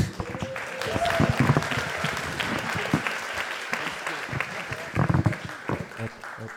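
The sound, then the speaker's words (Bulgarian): An audience applauds at a comedy roast. The clapping is dense and continuous, swells in a few louder bursts, and a voice is briefly heard over it. “Продължете с аплодисменти, докато оправя стойката, моля ви.”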